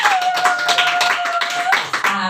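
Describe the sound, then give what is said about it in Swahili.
Audience applause for a minister who has stood up at a church gathering. Many quick claps patter evenly throughout, with a sustained tone running underneath. “hebu mpigieni makofi”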